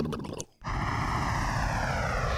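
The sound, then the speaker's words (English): A motorboat engine starts after a brief gap and holds a loud, steady, buzzing drone to the end. “Okay, Alex, are you ready to motorboat? We're going um, motorboat to Germany.”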